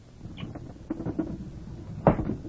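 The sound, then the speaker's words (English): A window being opened wider produces faint wooden rattling and light clicks, followed by a louder knock near the end. “Open the window wider.”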